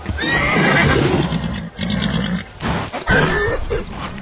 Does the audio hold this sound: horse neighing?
yes